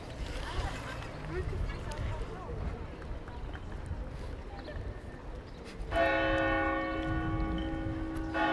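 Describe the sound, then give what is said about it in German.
Church bells ring out in Ulm. After a stretch of busy outdoor noise with voices, loud, resonant ringing starts partway through and sustains to the end. “Also ich habe irgendwie das Gefühl, alles läutet, nur dieses Glockenspiel nicht.”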